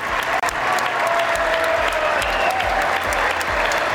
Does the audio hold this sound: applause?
yes

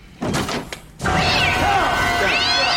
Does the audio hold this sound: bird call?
no

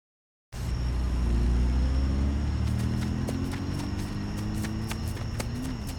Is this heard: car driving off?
yes

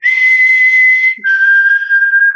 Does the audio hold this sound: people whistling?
yes

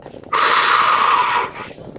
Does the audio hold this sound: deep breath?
yes

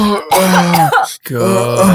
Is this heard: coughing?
yes

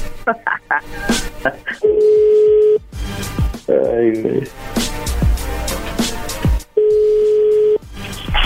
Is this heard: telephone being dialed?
yes

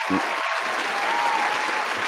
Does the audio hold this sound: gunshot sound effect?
no

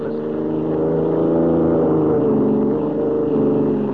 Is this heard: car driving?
yes

